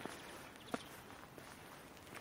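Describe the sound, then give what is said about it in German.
Footsteps of people out on a walk near an underpass, a few faint, unevenly spaced steps with soft scuffing between them against a quiet background hiss, with no talking. “Wir können dann mal durch die Unterführung gehen. Oh ja. Ein bisschen Effekt.”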